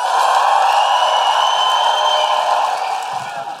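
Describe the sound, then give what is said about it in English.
A live audience cheering and woo-hooing an enthusiastic welcome for an opera singer, a dense, sustained roar of voices and whoops that eases slightly toward the end. “Please put your hands together and make an enormous Guilty Feminist woo-hooing operatic welcome for Nadine Benjamin!”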